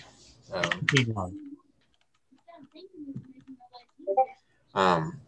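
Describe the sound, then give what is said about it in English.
Typing on a computer keyboard: a soft, uneven scatter of key clicks in the middle, between short bursts of a talking voice at the start and end. “Here, let me type it in the chat for.”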